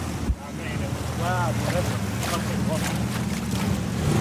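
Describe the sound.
A boat sailing on the water, heading back to find safety after incoming fire in a conflict zone. A steady, rumbling wash of motor, wind and water noise runs throughout, with a short thump at the start and faint voices.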